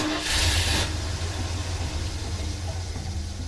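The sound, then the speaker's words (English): A pickup truck drives up and parks by a pond, its engine a low, steady rumble after a brief hissing rush at the start. “when a pickup truck drove up”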